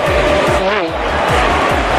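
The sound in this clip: A car engine roars and accelerates during a stage of a cycling race. The loud, continuous engine noise carries a steady pulsing low throb and a wavering tone.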